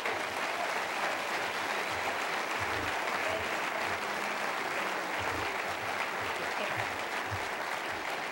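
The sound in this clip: Sustained applause from a Southern crowd welcoming a speaker, with dense, steady clapping at an even level throughout, and no clear break or peak.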